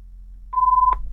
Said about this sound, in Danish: Og der ringte telefonen.